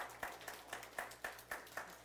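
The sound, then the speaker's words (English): Steady rhythmic clapping from a church audience, sharp claps landing in an even beat of about four per second, fairly faint throughout. “Give yourself a hand clap on that one.”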